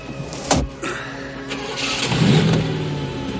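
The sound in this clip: A car engine starting and revving as the car drives off, in an action-thriller scene beside railway tracks. A short thud comes early, then the engine note builds and swells louder toward the end.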